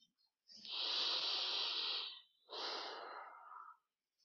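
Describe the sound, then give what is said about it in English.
A single deep breath is taken alone: two long, airy, hissing rushes of air, the first lasting well over a second and the second slightly shorter, separated by a brief pause. “Take a deep breath.”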